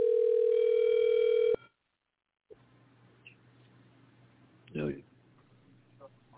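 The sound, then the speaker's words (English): Telephone dial tone heard while placing a call: a loud, steady hum that stops abruptly after about a second and a half, followed by quiet line hiss and a brief rustle. “Let me see if I can make a phone call. I'm trying to make a phone call.”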